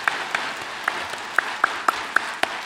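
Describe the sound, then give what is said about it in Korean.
Audience applause at a church gathering: a steady wash of clapping, with a few sharper claps standing out at irregular intervals. “옆에 있는 분에게 잘하셨습니다라고 우리 박수로 한번 격려합시다”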